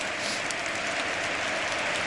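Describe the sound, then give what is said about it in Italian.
A stadium crowd gives a standing ovation to a substituted player during a football match, a steady, even wash of applause with no talk. “Gli applausi, la standing ovation, devo dire, tutti in piedi per Adem Ljajic.”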